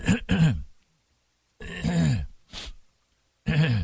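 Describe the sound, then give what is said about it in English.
Throat clearing from people bothered by pollen allergies during a heavy pollen season in Atlanta. Several short, rough, guttural bursts are separated by stretches of silence. “Everybody's clearing their throat.”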